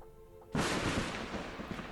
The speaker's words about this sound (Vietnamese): Đúng lúc này ở trên trời có một tia sét đánh ngang kèm theo tiếng sấm vang dội.